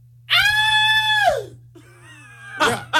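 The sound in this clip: A person imitates a high-pitched, girlish scream: one loud, sustained shriek lasting about a second that drops away at the end, followed by quieter vocal sounds.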